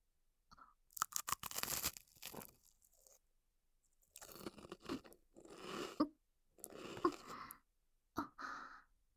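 Someone eats and chews food: a few bursts of crisp crunching separated by short pauses, fairly faint, with no speech.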